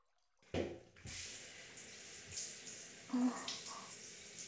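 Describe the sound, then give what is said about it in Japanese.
Hot water is poured to rinse someone's back while they bathe: a short splash, then a steady running flow with a few brief swells, fairly faint throughout. “では一度お湯で流しましょうか。”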